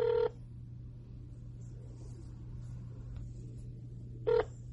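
A telephone number is dialed, heard as two brief touch-tone beeps separated by a long pause over a low, steady hum, fairly faint overall.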